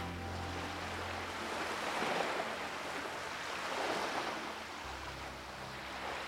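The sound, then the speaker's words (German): Ocean waves wash in a steady, broad hiss that swells gently twice before settling back to an even roar. “höre ich das Rauschen des Meeres, die Wellen.”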